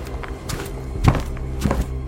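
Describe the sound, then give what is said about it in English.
Footsteps cross a room in a house toward a staircase: a few slow, heavy thudding steps with low thunks, one landing louder than the rest, and no talk. “He walks first across the room to the kitchen, looks through some of the adjacent doors, and then finally looks towards the staircase. Damn it! And he starts walking towards the stairs.”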